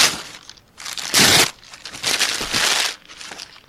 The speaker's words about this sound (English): going to push the button to make you think I'm ripping it. Okay, rip. Letter number one, number two, three. Got to rip all of this. Ripping it up.